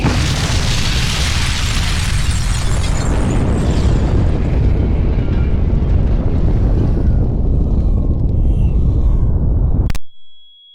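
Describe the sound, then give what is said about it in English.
A warhead detonates seven kilometres above a town with a loud, sustained, roaring blast full of heavy low rumble. It holds steady for about ten seconds, then cuts off abruptly into silence. “First warhead has detonated. 7 kilometers above town. The main force of the blast is being directed upwards,”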